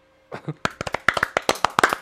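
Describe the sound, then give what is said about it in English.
Golf clap: one person's soft, polite hand claps after a brief vocal sound, a steady run of many quick, crisp claps at an even rhythm. “I give you the golf clap.”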